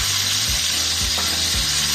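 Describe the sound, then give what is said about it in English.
Olive oil sizzles as it hits cooked chicken in a hot pan: a loud, steady frying hiss runs throughout, broken by a few low bumps from stirring. “All right, so our chicken's all cooked. We're gonna add a little bit more olive oil.”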